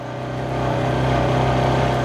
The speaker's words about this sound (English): I bump along in the back of a four-wheeler behind Kelly Hawley.